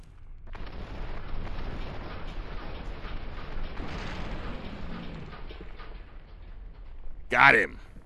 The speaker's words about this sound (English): It took 22 high explosive rockets from Red Glare.